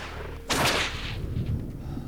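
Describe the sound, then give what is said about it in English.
A whip cracks in a street with one sharp, loud snap, followed by a low rumbling tail. “The three men surround Beck and crack their whips menacingly”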